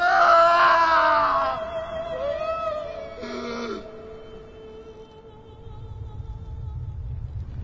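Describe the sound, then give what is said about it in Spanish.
A loud, anguished cry of a man dying by crucifixion. It starts as a strained, wavering wail, then a shorter cry follows and fades. A low rumble builds toward the end. “Entonces Jesús volvió a gritar y entregó su espíritu.”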